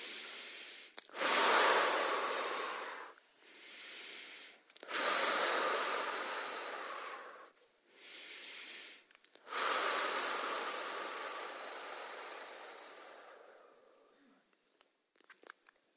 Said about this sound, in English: Take three very particularly deep breaths in and out.